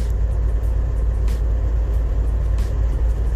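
Heard from inside a car while driving, a steady low engine and road rumble continues evenly throughout, with no voices or breaks.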